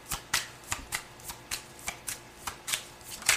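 A tarot card deck, the Grand Luxe, being shuffled: a quick, evenly spaced series of crisp riffling bursts, about a dozen, at a moderate level with no talk.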